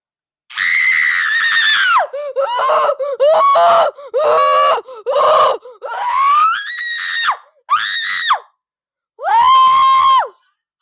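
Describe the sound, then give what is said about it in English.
A voice shouts "shut up" as a sound effect in a run of loud, high, strained screamed bursts, about seven of them, separated by short gaps, with a longer pause before the final burst. “did this shut up sound effect when the mic volume was low”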